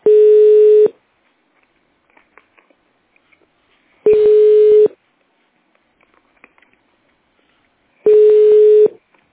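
A telephone connection tone while waiting for an answer: three long, steady mid-pitched beeps about four seconds apart, with faint clicks in the quiet gaps between them.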